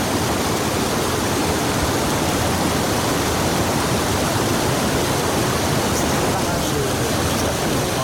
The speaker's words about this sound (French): c'est le barrage de prise d'eau, si tu veux, le canal par là-bas. Tu vois, ça retient l'eau pour remplir le canal. On a toutes les surverses